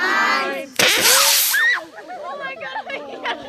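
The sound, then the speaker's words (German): A homemade model rocket decorated with stickers and colourful fins launches from a field with a loud, sharp hissing whoosh that bursts out about a second in, with voices heard before it and chattering on after it dies away. “14 selbstgebastelte Raketen mit Stickern, bunten Flügeln und eigenen Namen verziert schießen mehr als 100 Meter hoch in die Luft.”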